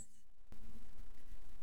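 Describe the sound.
A deep breath drawn in before a spiritual channelling session: after a short quiet pause comes a soft, steady, breathy hiss that lasts a little over a second, heard alone.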